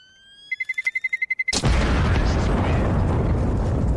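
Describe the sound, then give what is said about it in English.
A bomb explosion sound effect: a rapid run of short, even beeps stops abruptly and gives way to a loud, sudden blast that rolls on as a sustained roar until the end. “Now, hold up now. Drop a bomb for the year of multiplayer games.”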